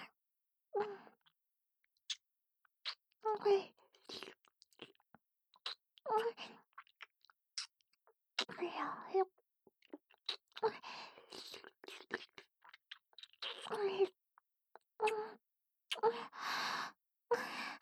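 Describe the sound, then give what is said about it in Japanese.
Wet kissing sounds from an intimate role-play, many short smacks and lip sounds scattered through quiet gaps, mixed with breathy sighs and soft moans. “もっともっとキスさせていただきますね。”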